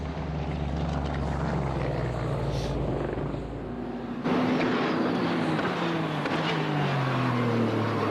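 The leading race car's engine roars past during a motor race, a continuous loud buzzing drone. Partway through its pitch drops and keeps sliding lower as the car goes by.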